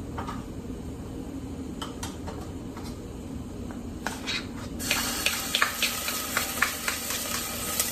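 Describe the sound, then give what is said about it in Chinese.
Garlic goes into a hot wok and sets off a sudden bright sizzle partway through, after a quieter low rumble. The frying hiss carries on steadily with a few light clicks from stirring. “头先已经热噶啦个锅，所以我哋而家就已经可以落蒜头。”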